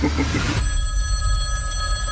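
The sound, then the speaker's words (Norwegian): A telephone bell rings in a police station, a steady bright electronic tone that sets in abruptly after a short burst of noise and keeps going, loud and unbroken, to the end. “First, that phone over there is gonna ring.”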